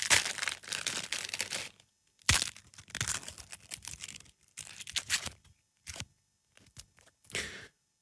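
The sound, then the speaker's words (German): A fortune cookie being unwrapped and cracked open gives a series of dry crinkling, crackling bursts of wrapper and brittle cookie, with brief quiet gaps between them. “Ich habe so ein paar Glückskekse übrig und ich habe mir gedacht, da machen wir während meiner Sendung immer mal wieder einen auf, damit wir mit guten Weisheiten in die neue Woche starten können. Das machen wir jetzt nochmal.”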